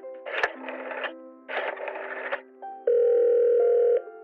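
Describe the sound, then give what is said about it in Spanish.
A telephone dial tone hums steadily for about a second, heard while a call is being dialed, after two earlier bursts of buzzy sound on the line. “¿Me permite marcar desde aquí? Ya no tengo batería.”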